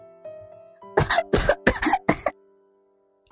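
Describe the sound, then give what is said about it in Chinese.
A person coughing suddenly: four harsh, loud coughs in quick succession over a faint steady hum, fading into quiet afterward. “事发突然，我猝不及防，咳了起来”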